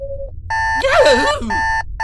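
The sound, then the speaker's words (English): A wristwatch alarm beeps aboard a spaceship, giving a few stretches of steady, bright electronic tone with short gaps between them. A wavering, warbling sound rises over the middle stretch. “A wristwatch alarm.”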